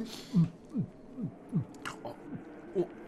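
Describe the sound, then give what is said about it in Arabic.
A person gulps clear, fresh water drawn up in a bucket, making a quiet, regular series of soft, low swallows about every half second. “يا له من ماء زلال، يدعو الإنسان إلى شربه. اشرب إذن. أشرب؟ نعم.”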